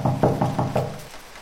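Someone knocks on a door five times, in quick, evenly spaced raps. Then it falls quiet.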